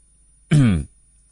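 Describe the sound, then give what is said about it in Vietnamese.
A light, feigned cough, a single short throat-clearing burst, voiced and fairly loud, alone in silence. “làm bộ làm tịch ho nhẹ một tiếng”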